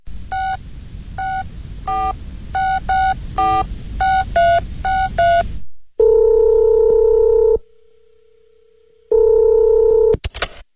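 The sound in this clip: A telephone call being placed: a quick run of many short keypad dialing beeps, then two long steady ringing tones separated by a pause, ending in a brief sharp click as the line connects.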